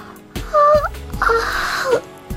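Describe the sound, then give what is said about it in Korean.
A drawn-out voiced yawn, performed for a carefully groomed flower waking at sunrise: a short tonal whine, then a longer sighing glide that drops in pitch at its end. “정성껏 공을 들여 치장한 그 꽃은 하품을 하며 이렇게 말했다.”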